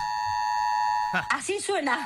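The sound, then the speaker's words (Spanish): An alarm sounds in a building hallway, a steady electronic tone held alone for about a second before a voice starts talking. “¿Y la sirena? Yo estoy en un edificio que no... La verdad que estoy en un piso alto, pero no... A ver, escucha, a ver, sentí. Ahí está, esto es del pasillo, ¿eh? Ahí está.”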